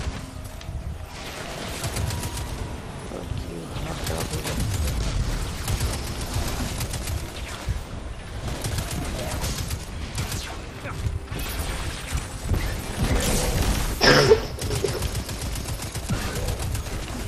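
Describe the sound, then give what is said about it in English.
Rapid automatic fire from a solar weapon in a video game, a dense, continuous stream of loud shots with mechanical clatter running throughout, briefly peaking near the end. “Oh, I got my solar weapon. Let's go. Which I think it kills with it.”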